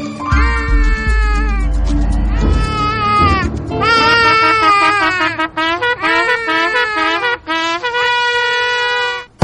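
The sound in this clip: A young child cries loudly and without stopping, with wavering high-pitched wails broken by brief catches of breath.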